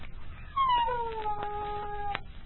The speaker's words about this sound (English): there's that coyote again. He sings each night from the shadow of the barns.